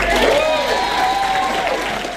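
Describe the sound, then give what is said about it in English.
Standing ovation for Chris Hipkins in New Plymouth: dense, steady applause and crowd cheering, with voices rising over the clapping throughout. “introduces her boss to a standing ovation. You might know him as Chippy. I know him also Chippy. Please give a warm New Plymouth welcome to Chris Hipkins.”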